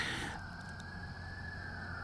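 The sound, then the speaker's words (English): Faint sirens from fire trucks or police cars hold a steady, sustained high tone over a low background rumble, with no voices. “fire trucks or police cars speed by in the distance, so hopefully it's not anything too terrible. Apologize for the sirens there in the background.”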